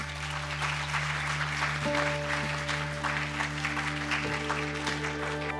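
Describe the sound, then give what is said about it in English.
Audience applause for the speakers at a Stockholm School of Economics seminar panel on China's Belt and Road Initiative: dense, steady clapping that holds at an even level throughout. “And let's join me in giving our speakers a big hand.”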